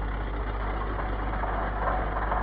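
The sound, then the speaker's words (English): A bus engine idles at a request stop on a high street, a steady, unbroken low rumble with even loudness throughout. “The bus turned into the high street. That's a clever trick. And made its way to the first request stop.”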